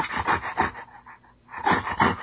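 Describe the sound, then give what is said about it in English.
A voice imitating a dog-like creature lurking in bushes in a video game, with rough, breathy growling pulses in two bursts around a brief quieter gap. “the weird dog thing that's in the bushes going...”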